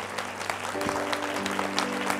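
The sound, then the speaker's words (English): A church audience claps to welcome new members in a continuous, even burst of applause over a sustained musical tone. “Let's give all of these a hand. We're so glad. Welcome them.”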